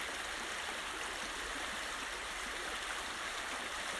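A stream near Mount Shasta flows steadily, a soft, unbroken hiss and rush of running water that stays faint and even throughout.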